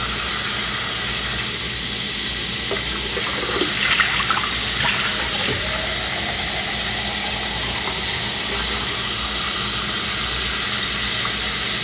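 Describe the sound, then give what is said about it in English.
Running tap water rinsing something out before coffee is made, a steady, even hiss of flowing water with a brief knock and splash partway through. “Oh, you should rinse this out first.”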